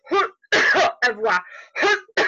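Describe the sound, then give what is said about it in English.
Harsh, voiced coughs meant to release the throat come in a series of short, rough bursts separated by brief gaps. They are loud and close together, with no speech around them. “I'm going to cough some for releasing around the throat.”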